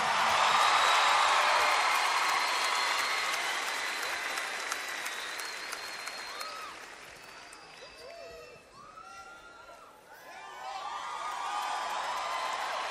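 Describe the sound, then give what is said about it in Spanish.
Audience applause at a live concert, dense, steady clapping with occasional whoops from the crowd, thinning briefly toward the end before swelling again. “Un aplauso para Alex”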